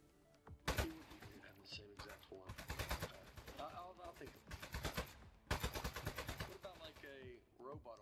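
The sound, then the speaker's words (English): Rapid bursts of gunfire from shooting and smashing housewares in the video game Aperture Desk Job. Several long, dense volleys are separated by short pauses. “Am I supposed to be shooting something in particular? No, just keep going. Destroying random housewares.”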